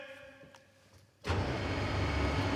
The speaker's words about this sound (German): Thomas Sebeskin fährt die Bühne hoch